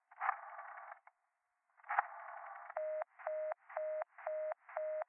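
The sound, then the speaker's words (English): Telephone line tones on a busy line: two longer buzzy tones, then five evenly spaced short beeps of a busy signal at a steady pitch, with no voices. “will you ring that Murray Hill 70093 number again? I can't think what's keeping him so long. I will try it for you.”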